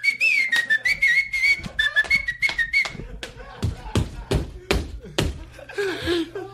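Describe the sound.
A person whistles a wavering, high tune to pump up a crowd, then a run of sharp knocks and thumps follows, with voices talking throughout.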